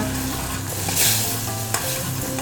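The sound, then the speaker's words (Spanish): A spoon stirs a sizzling sauce in a pan as a teaspoon of coffee is added. A steady frying hiss runs throughout, with soft scraping strokes and a brief louder swell of sizzle. “Le vamos a echar un poquito de café a la salsa. Una cucharadita nomás.”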